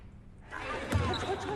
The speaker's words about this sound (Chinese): 此时，郑涵江正在綦江大学的篮球场上挥汗如雨，他灵活地穿梭，轻松突破了对方的防线，完成了一个又一个精彩的上篮。